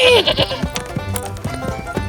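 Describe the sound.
A goat bleats in an animated children's fairy tale, one loud, wavering bleat right at the start, followed by voices talking over quieter background sound.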